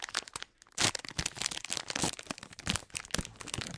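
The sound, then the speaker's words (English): Salted peanut butter cookies torn apart by hand give dense, crumbly crackling and crunchy snaps in quick, irregular bursts, loud and close, with no talking. “This one is salted peanut butter cookies, and I'm just going to put it in my hands and make little tear noises.”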